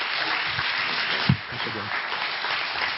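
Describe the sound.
A church audience applauding to welcome a guest speaker, with dense steady clapping throughout and a voice heard briefly.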